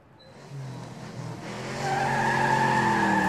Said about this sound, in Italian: Guarda come guida veloce quel pazzo.